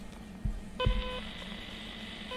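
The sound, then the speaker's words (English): Touch-keypad DTMF tones from a handheld radio dialing a repeater station: a steady electronic two-tone beep held for under half a second after a soft thump, then another tone starting near the end, over faint background hiss. “on the touch keypad here, which is a bit like a telephone keypad, the number of the station that I want to connect to. I'll just do one now.”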